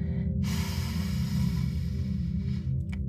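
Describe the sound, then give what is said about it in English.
A long, deep breath drawn in through the nose during a standing meditation, a breathy rush of about two seconds over a steady low drone that continues underneath. “let's take a deep breath in here and through the nose.”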